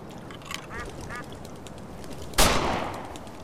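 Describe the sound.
A few duck quacks sound during a hunt, followed by a sharp, loud gunshot that rings out and slowly fades.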